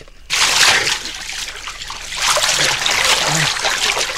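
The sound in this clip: Water splashes and trickles as a jacket is pulled out of the water, coming in two loud, churning bursts separated by a quieter stretch.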